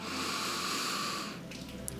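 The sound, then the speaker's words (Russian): A deep breath gives a soft, airy rush that holds steady for about a second before fading to near quiet. “И еще один глубокий вдох и выдох прямо в эту точку, через эту точку вдох”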